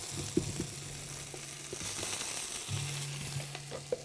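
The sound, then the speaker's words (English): Potatoes sizzle in a hot pan with onion: a steady, bright frying hiss with a few sharp clicks and taps from stirring, and a low hum underneath. “We could add carrot and celery and onion to this also, but instead we'll add some potatoes.”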